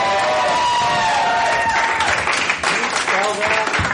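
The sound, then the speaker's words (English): An audience at a live show applauds and cheers a performer, producing loud, continuous clapping and cheering with a voice speaking over it. “make some noise for Tay Lu, ladies and gentlemen”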